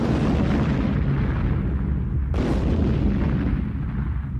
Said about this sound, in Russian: Укрывшись за машиной, я приготовился к стрельбе, но в этот момент раздался оглушительный взрыв.